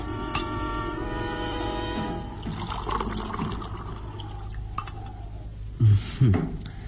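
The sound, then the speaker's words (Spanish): Liquid poured into a glass inside a rustic hut, a trickling pour with glassy clinks, ending in a couple of heavier knocks. “quien mira estúpidamente al joven Lucas Van Doren llenar por enésima vez el vaso.”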